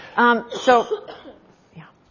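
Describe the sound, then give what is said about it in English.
A person coughs in two short, harsh voiced bursts close together, followed by fainter rasping breaths. “Bad coughing is going to be a part of the next several minutes, I'm sure.”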